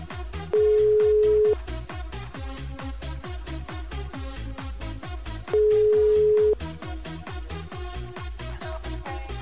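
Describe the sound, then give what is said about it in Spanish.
A telephone rings with two long, steady electronic tones, each about a second long and spaced several seconds apart, sounding over a fast, regular thumping music beat that continues throughout. “Ahí está sonando el teléfono.”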